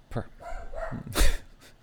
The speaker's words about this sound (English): Did I mention we're dog sitting? We're dog sitting. Baphomet speaks.